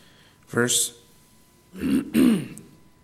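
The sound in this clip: A person clears their throat and coughs in two harsh, throaty bursts separated by a pause; the second burst is longer and comes in two quick pushes.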